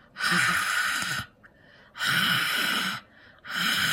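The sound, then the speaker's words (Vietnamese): A voice imitates strange, raspy, breathy exhalations like a caller breathing on a phone line in the middle of the night: three long, hoarse breaths, each about a second, separated by brief quieter gaps. “bây giờ không nghiến răng nữa mà bắt đầu thở. Mà thở cái kiểu rất là kỳ, thở cái kiểu hà hơi á các bạn, dạng vậy nè.”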